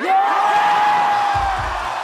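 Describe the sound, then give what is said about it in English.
Audience whoops and cheers at a live music performance, loud sustained yelling with a long whistle-like tone, and a few low stomping thumps near the end. “I've here elected to play for you the live version of the song, with all of its foot stomping and audience cheering.”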